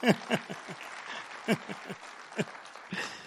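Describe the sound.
A church audience clapping to welcome guests during a service: sparse, scattered claps rather than a full ovation, a few sharp hits clustered at the start and more spread across the rest.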